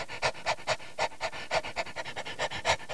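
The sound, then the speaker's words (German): A dog panting with quick, rhythmic breaths, many short puffs in a steady fast pattern, alone without any talk. “der Hund, sprang ihm wedelnd entgegen.”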